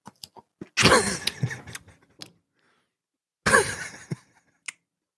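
Chewing of a shrink-wrapped Bifi salami sausage comes in two bursts of wet, crunchy mastication with sharp clicks, separated by a quiet pause, with no talking.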